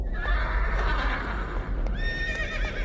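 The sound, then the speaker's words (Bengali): A restless horse neighs in two shrill, wavering whinnies separated by a short gap, over faint shuffling hoof sounds. “ঘোড়াটা অস্থির হয়ে ছটফটানি শুরু করেছে।”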